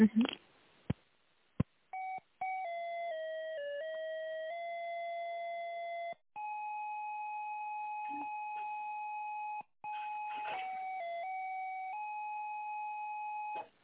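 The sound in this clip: Electronic telephone tones play while a call is being transferred. A few sharp clicks come first, then a long run of sustained beeps that step up and down in pitch, broken by two short gaps.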